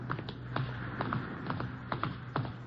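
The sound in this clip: Footsteps climb steps as a steady series of soft, muffled taps at an even walking pace, faint over a low background hum.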